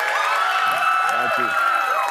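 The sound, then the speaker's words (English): Crowd cheering at the University of Kentucky in Lexington: a steady, dense roar of voices and whoops runs throughout, with a person speaking over it. “The cheers are getting louder here in Lexington.”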